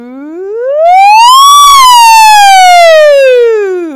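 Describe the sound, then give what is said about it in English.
A voice imitates a siren during a vocal warm-up, one loud sustained glide that sweeps up to a peak and then slowly falls back down. “But we also do things like sirens, right? Have you guys done sirens before?”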